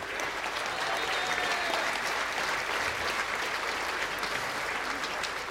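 Sustained applause from a live folk concert audience, a dense, even wash of clapping that holds at a steady level for the whole stretch without breaking into distinct claps.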